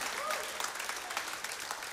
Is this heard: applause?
yes